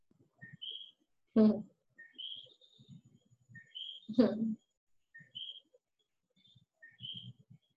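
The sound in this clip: A bird sings short, high, whistled chirp phrases that repeat in a steady pattern, each a quick pair of bright notes, while a man talks softly between and under them.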